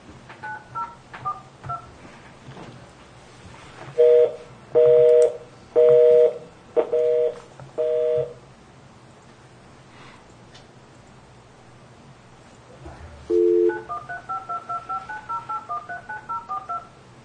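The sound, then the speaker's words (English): DTMF keypad tones dialing an account code on a phone: five steady, evenly spaced tones, then after a pause another tone followed by a quick run of short beeps. “Account code you have dialed is not valid.”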